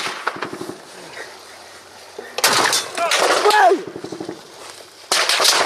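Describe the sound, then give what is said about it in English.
Gunshots near a checkpoint in Ukraine, a few sharp, loud cracks breaking out abruptly while people talk and move about. “That's a bullet.”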